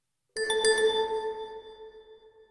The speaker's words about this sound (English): The sound you just heard is the default notification sound for this app.